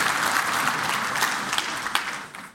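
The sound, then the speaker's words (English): An audience applauding after a participation exercise: sustained, dense clapping from many hands that gradually thins and fades toward the end. “Good job. Give yourself a hand.”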